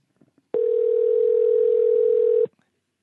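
A telephone dial tone sounds as a single steady, unbroken tone for about two seconds, loud and alone, with a few faint clicks just before it starts.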